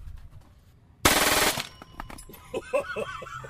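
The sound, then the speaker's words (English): A Glock 18C pistol fires a full-auto burst from a 30-round magazine: one loud, dense roar about half a second long with the shots blurred together, followed by quieter clattering and ringing sounds. “So this is a Glock. Glock 18C. Full auto. And it's going to take how many rounds? 30 rounds, 2.2 seconds.”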